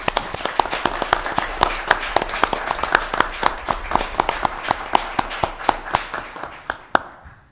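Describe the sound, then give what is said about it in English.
Audience applause at a meeting honoring two students: many sharp, dense claps in a steady run that thins out and stops near the end. “Let's have a round of applause for these two outstanding students”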